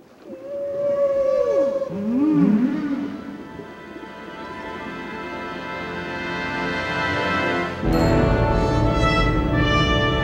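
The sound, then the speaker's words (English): Whales calling: loud, sweeping moans that glide down and up in pitch at the start, giving way to a sustained rushing wash that surges abruptly louder near the end. “The whales straighten up as the probe flies away. They break through the surface as the rain-drenched crew cheers them on with smiles and waves.”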